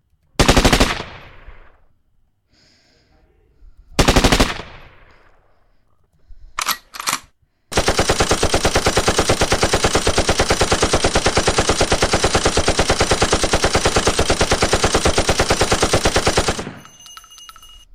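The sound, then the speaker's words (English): Machine gun fire sound effects from three different machine guns: loud short bursts separated by pauses, then one long, relentless stretch of rapid automatic fire lasting several seconds before it cuts off. “And then this one, we have three different machine guns.”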